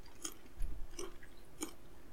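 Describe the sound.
Crunchy chewing of a mixed-nut snack, with three faint crisp bites spread over a quiet background.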